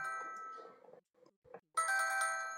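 A phone rings with a message alert: a bright electronic melodic tone plays, breaks off into near silence with a few soft clicks, then resumes louder and keeps sounding.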